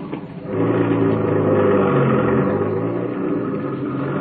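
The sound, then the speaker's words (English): A car engine rumbles and revs as the car makes a U-turn. The steady mid-pitched drone swells after a brief quieter start and stays loud until the end. “Hope there wasn't no cops seen me make that U-turn.”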